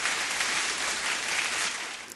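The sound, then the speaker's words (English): A round of applause plays as dense, even clapping that holds steady and then tapers off just before the end. “You were almost there, so I'm still going to give you a round of applause.”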